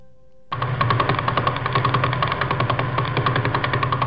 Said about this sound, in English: And when we pointed our radio telescope and aimed it at the Vela Pulsar, this is what we heard.